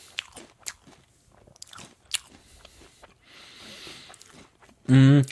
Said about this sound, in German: Nee, ich esse Smacks. Keine Chips.